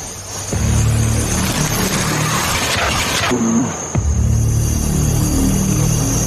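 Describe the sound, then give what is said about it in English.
A truck engine rumbles and revs as the truck is driven at a wrestling event. It is a steady low drone under a loud wash of broad noise that dips briefly near the end, then returns. “driving the truck”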